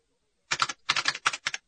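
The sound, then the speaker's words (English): Keys being tapped on a datapad, heard as quick, crisp clicks grouped in short bursts separated by brief pauses. The taps are fairly soft and come alone, with no talk. “With the tap of a couple of keys on his datapad, Wedge Antilles”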